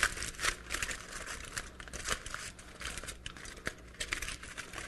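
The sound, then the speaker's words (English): Aluminium foil crinkles and crackles as it is crumpled and pinched into a small figure, with a steady run of bright, papery crunching bursts throughout. “And if I decide to make this foil into a little creature, I'll give him some arms.”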